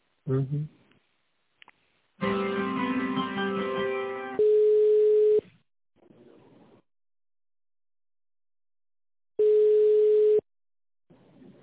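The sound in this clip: Telephone line tone while a call is transferred to an accountant at a company: two long, steady, mid-pitched beeps about four seconds apart, with voices heard before them.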